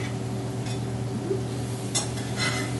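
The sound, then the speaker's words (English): Soft scraping and light clinking of a utensil stirring and flipping food in a pan, over a low steady hum, with a few brief scrapes as the food is moved. “just give it a give it a stir. Always hold the the handle with the, the rag and just try to try to flip it casually, slowly.”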